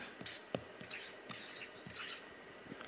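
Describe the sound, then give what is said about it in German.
A word is written on a board in short, scratchy rubbing strokes that come in a quick, irregular series. A sharp tap sounds near the start, and the whole sequence stays quiet. “wenn wir jetzt da das Wort Liebe mal anschreiben”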